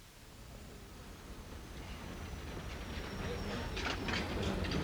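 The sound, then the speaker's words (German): A train runs as heard from inside a railway compartment: a faint, steady rushing rumble that slowly grows louder, with a thin high whine and light rattling near the end. “Ein Eisenbahnabteil.”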